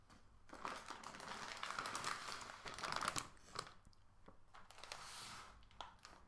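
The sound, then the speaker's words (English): Plastic packets of assorted noodles being handled, crinkling and crunching in a continuous run of crisp rustles and crackles that swell and ease, with no talking. “Let me bring all the different types of noodle.”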